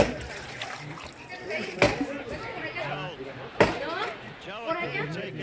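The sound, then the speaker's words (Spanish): Water splashing and sloshing as salted tripe is rinsed clean of its salt and turned inside out with a small stick. Two sharp knocks stand out, and people talk throughout. “Y ahí la enjuaga para que se le quite toda la sal.”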